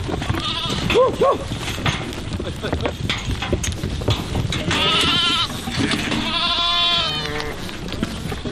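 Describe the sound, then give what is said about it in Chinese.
A herd of goats and sheep bleats while a family drives the livestock down through snow to lower, warmer winter pastures. Wavering bleats rise repeatedly out of a busy, shuffling background of the moving flock. “托列西便和家人赶着畜群迁徙到这里。”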